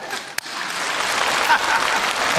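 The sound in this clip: Audience applause during a comedic crosstalk performance: a steady wash of clapping with a single sharp click early on, holding a fairly even level throughout.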